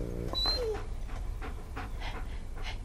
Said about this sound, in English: the dog licks its lips, sniffing closer to the congealed pool of blood